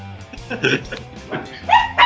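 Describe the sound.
Dog-like yips and barks come through glitching online call audio, mixed with a garbled voice in several short, loud bursts.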